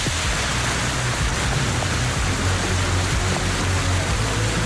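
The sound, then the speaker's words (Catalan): Heavy rain falling during a storm in Tordera, a dense, unbroken hiss that stays loud and steady throughout, with a faint low hum beneath it. “Sí, aquest és el so de la pluja ara mateix a Tordera, ho podeu sentir.”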